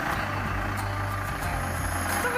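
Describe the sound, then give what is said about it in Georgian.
Steady engine rumble of a bus at a bus station, a loud, continuous low drone with a few faint high clicks over it and no break. “ეს ავტოსადგურია, ეს კი ჩემი ავტობუსი.”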